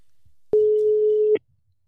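A single steady telephone tone sounds as a call is placed, lasting under a second with a click at each end and near silence before and after.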